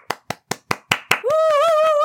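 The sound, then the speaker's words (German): Six sharp, evenly spaced hand claps ring out alone as a short round of applause, then a sustained, wavering voiced tone takes over. “An dieser Stelle möchte ich bitte Applaus haben für die Überleitung des Monats, danke. Gut, dass wir ja nur 2 Folgen haben diesen Monat. Ein Applaus bitte.”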